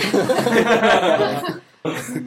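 Coughing from a tickle in the throat: a longer, rough, voiced burst, then a short silence and a second brief burst.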